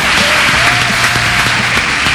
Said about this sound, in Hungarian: Tapsoljuk meg, Misi. Kettes stúdiós tapsol.